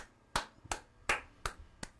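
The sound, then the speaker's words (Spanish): Five sharp hand claps in a slow, even rhythm, each a loud isolated crack against a quiet background, with no voices. “Hay que aplaudirlo.”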